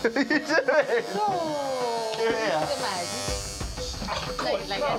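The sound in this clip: Electric clippers buzz steadily as they cut a man's hair in Africa, a constant motor drone running under people talking.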